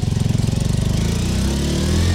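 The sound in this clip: A motorcycle engine starts and is revved hard. A rapid chugging pulse smooths into a louder, steadier roar as the revs climb, with no voices over it.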